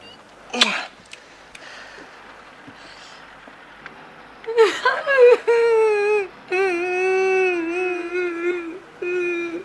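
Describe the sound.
A man is crying. A sharp sound and a quiet stretch come first, then faint sobs build into loud, sustained, wavering wails broken by short gasps.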